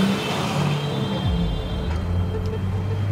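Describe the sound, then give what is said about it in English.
Engine rumble of a van pulling away as part of a convoy: a steady, low motor drone that continues for the whole clip without breaks. “We get into our van, and the convoy drives off.”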